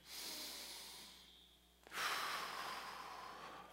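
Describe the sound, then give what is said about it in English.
Two long, deep breaths in a guided breathing exercise, each a breathy rush of air lasting well over a second. The second breath is louder and brighter than the first, with no talking. “Let's just take 3 deep breaths in.”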